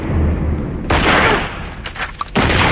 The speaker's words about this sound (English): They fire at someone on a high walkway and hit him.